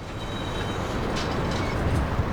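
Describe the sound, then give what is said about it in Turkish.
A molten sulfur rail wagon rolls through retarder brakes on a downhill track, making a steady, dense low rumble. Faint thin metallic squeal traces rise above it at times. “Erimiş kükürt vagonu yavaşlatıcı frenlerden geçiyor ve tepenin aşağısına olan 500 metrelik yolculuğunda 5 tane noktaya yönlendiriliyor.”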